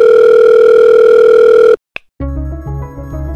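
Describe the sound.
A telephone placing a long-distance call: a loud, steady dial tone cuts off suddenly, followed by a brief click and then a different buzzing tone with lower, layered pitches.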